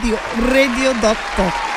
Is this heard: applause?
yes